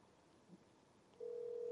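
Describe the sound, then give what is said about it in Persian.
Telephone ringback tone on an outgoing call: after a quiet stretch, a single steady mid-pitched tone comes in and holds unbroken to the end. “من الان دارم به ایشون میبینید جلوی دوربین، من الان دارم به ایشون زنگ میزنم.”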